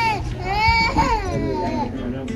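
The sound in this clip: A newborn baby cries in a continuous, loud, strained wail, its pitch wavering up and down through drawn-out cries.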